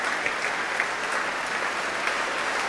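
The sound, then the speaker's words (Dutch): Steady, dense applause from an orchestral concert audience in Amsterdam, given to the trombone section after a symphony performance; continuous clapping holds an even level throughout with no voices standing out. “groot applaus ook voor de trombones”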